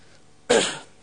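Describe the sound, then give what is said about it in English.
A single short, harsh cough bursts out once, fairly loud and alone, then trails off quickly into quiet. “Sorry, my cough's playing up.”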